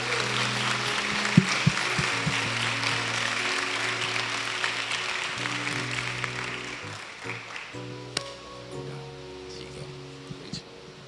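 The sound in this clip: Church audience applause welcoming a pastor up to preach: a sustained, even spread of clapping that gradually thins and softens toward the end.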